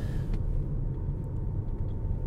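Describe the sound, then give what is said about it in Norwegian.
Steady road rumble from a car driving into Birkenes municipality in southern Norway, a continuous low drone with no talking. “Nå kjører vi inn i Birkenes kommune.”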